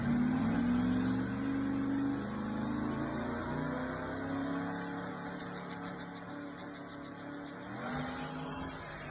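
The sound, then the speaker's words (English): A true twin-turbo Duramax diesel setup, not a compound one, revs as a loud, steady engine drone whose pitch wavers and then climbs sharply near the end, with no talk over it. “Now, Duramax has a unique sound. Oh, especially with the twin turbos.”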